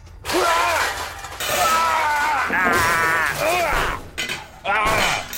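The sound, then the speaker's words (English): Potions smashing and shattering in a video game: bright glassy crashes in a dense stream, mixed with voices and other game sounds, loud almost throughout with a few short breaks. “Okay, well, let's smash some shit. Potion, smash potion, smash potion, smash these potion.”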